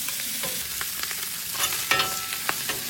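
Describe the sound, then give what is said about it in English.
Strips of bacon fry on a griddle, a dense, steady sizzling hiss with scattered sharper pops and crackles throughout. “Some strips of bacon on the griddle.”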